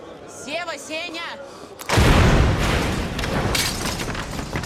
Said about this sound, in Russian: Раздался большой взрыв.